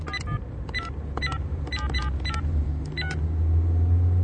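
A phone is dialed to place a call, giving a quick run of short two-tone keypad beeps, about a dozen presses in uneven rhythm. A low rumble underneath grows louder toward the end.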